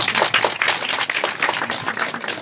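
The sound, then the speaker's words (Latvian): Applause from an audience, a dense and steady burst of many hands clapping that holds at an even loudness for about two and a half seconds. “Aplausi.”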